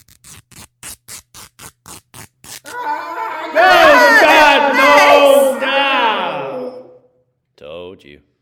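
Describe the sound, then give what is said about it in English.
A staged sound effect of bandages ripped off a patient: a quick, even run of short tearing strokes, then a voice groans and cries out loudly, and a brief final sound follows. “Rip off those bandages.”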